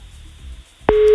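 A telephone calling signal starts abruptly after a near-silent pause and then holds as a steady, single-pitched tone to the end, heard while someone places a call.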